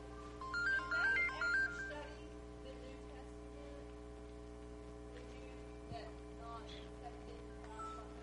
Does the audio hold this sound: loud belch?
no